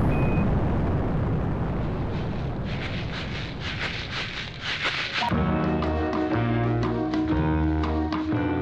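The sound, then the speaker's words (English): Rocket ignition and liftoff: a loud, dense, continuous roaring rumble fills the first five seconds, then cuts away to a quieter passage of steady tones. “five, four, three, two, one. Ignition sequence start.”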